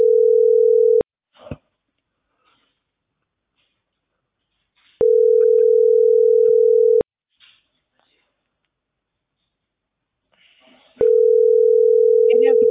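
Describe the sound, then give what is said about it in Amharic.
A telephone ringback tone plays while a call connects: a steady low buzzing tone sounds three times, each lasting about two seconds, with long silent gaps and faint clicks between. “እየጠራ ነው አንተ ጋር።”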